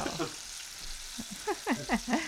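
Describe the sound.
Food frying in a pan, a steady bright sizzling hiss with a few short crackles and pops scattered through it.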